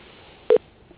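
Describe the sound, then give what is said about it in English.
A single short, mid-pitched telephone beep as a call is transferred to voicemail, standing alone over faint line hiss. “you could throw me to Mark's voicemail as well. Okay, one moment, please.”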